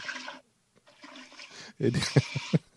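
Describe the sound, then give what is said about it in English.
A clogged toilet is flushed and water rushes up toward overflowing, a loud burst of gushing and splashing near the end that follows earlier talking. “I think it's working, because like now when I flush, it goes... Like it's soaking up the water.”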